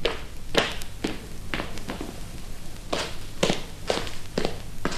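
Footsteps of a person walking, from a stereo demonstration record: a steady series of crisp, evenly spaced steps, each a short sharp tap, fairly faint over a low background hiss.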